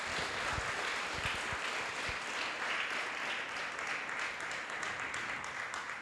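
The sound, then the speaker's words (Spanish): A church audience applauds during a worship service, a dense, steady wash of many hands clapping that holds an even level throughout and sounds faint, with no voices standing out. “Denle un fuerte aplauso al Señor”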